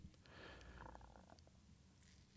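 Faint, low purring of a cat, a soft continuous rumble that is strongest in the first half and then fades to a quieter hum.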